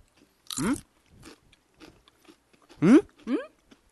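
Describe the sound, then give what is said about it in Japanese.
Crisp crunching as a yuzu kosho burdock chip is bitten and chewed, a few dry, brittle crunches mixed with short voiced exclamations from the eater. “さあ、柚子胡椒とごぼう、どういう、 いただきます。 あ、いい音。”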